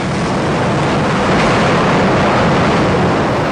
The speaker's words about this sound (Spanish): ¿qué onda este subte tan lleno?